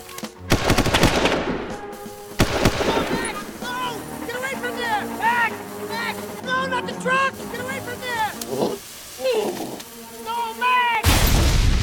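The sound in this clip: Gunshots ring out in a few sharp, loud bursts at the start and again near the end, with shouting voices and tense cries filling the stretch between them.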